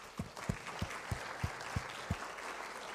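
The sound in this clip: Audience applause welcomes a guest speaker at a World Missions Conference: soft, steady clapping with a series of regular, low thumps standing out from the patter.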